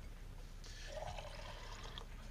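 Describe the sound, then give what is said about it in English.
A little water, about 100 ml, poured into a baking dish of food before baking: a brief, faint, soft splash and trickle lasting under two seconds. “And then, just a little bit of water.”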